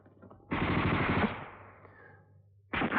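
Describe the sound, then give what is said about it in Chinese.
Gunfire erupts in a loud burst after a warning to halt, ringing out and slowly fading, then a second burst starts abruptly near the end. “不站住开枪了！”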